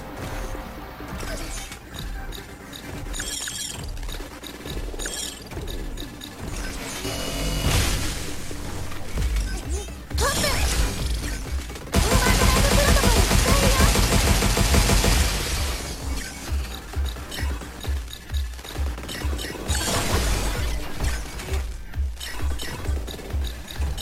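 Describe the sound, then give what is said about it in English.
A crusher smashes heavily in a video game amid dense game audio, its loud, rhythmic pounding growing stronger and more regular in the second half. “Yep. Found it. But there is a crusher in here.”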